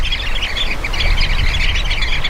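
Calls of a sociable bird that gathers in large flocks: many overlapping chirps and squawks, dense and continuous, over a low rumble.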